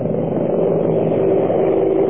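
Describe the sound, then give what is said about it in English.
Helicopter engine and rotor noise from wartime troop and supply flights, a loud, dull, continuous rumble that stays even throughout with no distinct beats. “helicopters and gigantic cargo planes brought troops by the thousands and supplies by the kilotons.”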